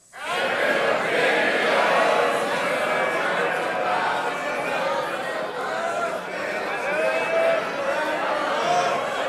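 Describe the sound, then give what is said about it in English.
Live show audience singing its own version of the show's theme song, a loud, unruly chorus of many voices that stays dense and sustained from start to finish. “You guys sing your own theme song. So let's hear it from the audience. Your interpretation of the second opinions theme. One, two, three, go.”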